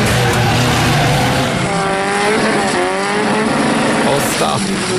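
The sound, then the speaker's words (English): Cars in a destruction-derby-style race: loud engines roar and rev with sweeping pitch, along with tire squeal, in a continuous, rough, noisy stretch. “the videos he sends me are of this destruction derby style race. It's not very clear audio, but have a listen.”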